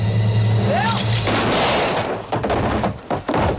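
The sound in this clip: A gunshot, a loud, broad blast with a brief whistling ring, then a rumbling tail that fades out with a few dull thuds.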